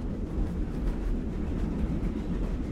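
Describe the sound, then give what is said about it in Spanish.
A train travelling through a forest, giving a steady low rumble with faint, regular rattling clatter over it. “El tren está atravesando un bosque.”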